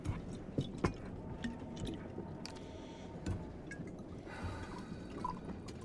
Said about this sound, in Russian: Лобов разлил самогон по стаканам. Выпивает, закусывает.